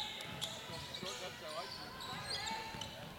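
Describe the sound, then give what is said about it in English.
A basketball is dribbled during a game, a few soft bounces under a murmur of voices and scattered squeaks. “Dribble up top.”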